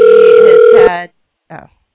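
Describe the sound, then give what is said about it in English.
A telephone ringing on a call: a loud, steady electronic ring lasting under a second that cuts off, then, after a pause, one brief fainter burst. “I'm sure you can hear the phone ring.”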